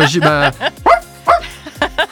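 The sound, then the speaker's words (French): Small dog barking in a quick run of many high, sharp yaps with short gaps between them. “Il avait la balle ? Il le mérite, hein, ce petit chien. Il est très mignon.”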